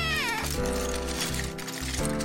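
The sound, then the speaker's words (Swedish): A pet cat meows in one long, loud, drawn-out call that opens with a falling pitch and then holds steady, with no other voices. “Katten Tussan hjälper till.”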